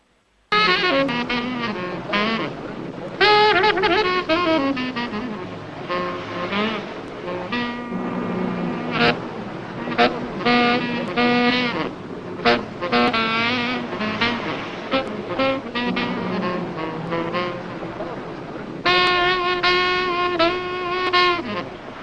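Jazz saxophone plays a lively melodic line over a low, steady car-engine rumble in a scene from an independent film set in the jazz world. The music stays continuous and fairly loud, with no talking.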